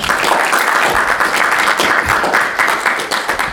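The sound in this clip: An audience at a Middle East Center seminar on the Anfal campaign in northern Iraq applauds to welcome the speaker. The clapping is loud and sustained, from many hands, and thins slightly toward the end.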